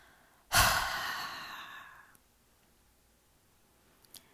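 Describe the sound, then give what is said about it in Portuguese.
A single slow exhale during a paced breathing exercise, a loud breathy rush that starts abruptly and tapers off over about one and a half seconds, followed by quiet. “Agora exala em 2 segundos.”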